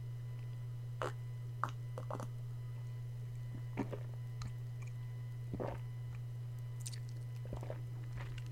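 Wet crunching and squishy chewing as someone eats a pear: irregular bites and mouth sounds spread across several seconds over a steady low hum, with no talking.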